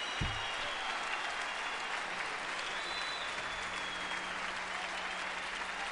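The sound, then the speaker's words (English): Audience applause at a live jazz quartet concert, a soft, even patter of many hands clapping that holds steady from start to finish after a brief low thump at the opening. “I love the audience noise. You're only as good as your audience, you know?”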